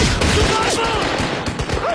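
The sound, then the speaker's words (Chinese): Gunfire volley in a film shootout between bandits: rapid, overlapping shots crowd a dense, loud, continuous burst of sound. “枪声响起”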